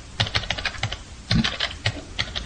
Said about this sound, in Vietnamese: ngón tay của Tư Dao cứng đờ vì sợ hãi, gõ trên bàn phím.